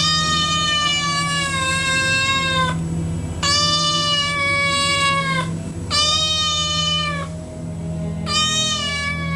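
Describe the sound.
Cat meowing outside a window: four long, drawn-out tonal meows in a steady sequence, the last cut off, loud and clear over a low constant hum.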